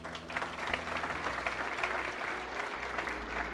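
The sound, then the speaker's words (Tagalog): Applause from a church audience for people who stood up to receive Jesus: dense, even clapping from many hands continues steadily throughout. “Pwede ba nating palakpakan sila?”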